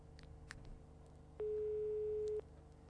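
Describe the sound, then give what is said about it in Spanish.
A telephone ringback tone sounds while a call is being placed: one steady, pure beep lasting about a second, clear above a quiet background hiss. “A ver, estamos llamando. A ver si nos atienden.”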